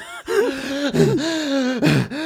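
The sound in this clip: A voice imitates the gasping of someone out of breath: a few voiced, wavering gasps run close together, with pitch sliding up and down and short breaks between them.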